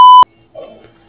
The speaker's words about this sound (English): This person cannot be reached at the moment. Please leave a message after the tone.